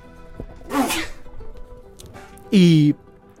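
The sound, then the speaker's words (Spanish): A person sneezes: a breathy burst, then a loud, sharp, voiced blast near the end that drops slightly in pitch. “Voy a estornudar, amigos. Cuidado que voy.”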